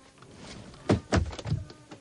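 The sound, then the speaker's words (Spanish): A dresser drawer is pushed shut and stops against an obstruction, giving a few dull, low thunks in quick succession. The first two knocks are the heaviest. “Abre un cajón de la cómoda para guardar la ropa interior y al intentar cerrarlo se encuentra con un tope.”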